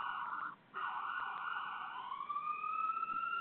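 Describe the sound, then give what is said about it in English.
Emergency vehicle siren wailing in the background, a sustained tone broken once by a short gap, then gliding upward in pitch, moderately faint over a low rumble. “Sorry for the background noise. As you can hear, there are some emergency vehicles popping up in the background.”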